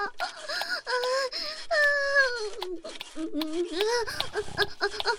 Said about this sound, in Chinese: 那你孙子哭也不能不管啊，这大晚上小孩子不能一直哭呀。